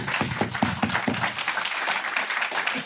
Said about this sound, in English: give it up for Sonia Gill.